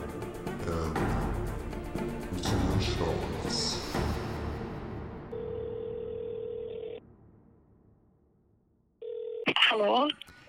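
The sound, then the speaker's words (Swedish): Telephone tones as a call is placed: a long steady electronic tone, a short pause, a brief second tone, then a voice picks up on the line. “Och nu ska jag välja ut vem vi ska ringa.”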